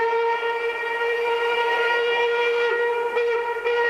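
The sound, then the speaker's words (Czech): Express passenger train whistle: one long, sustained, multi-toned blast held loud and steady throughout, with no break in pitch. “Náš ostře sledovaný rychlík 651 projel už Mýto, Kařízek, Zběroch, Cerhovice a blíží se...”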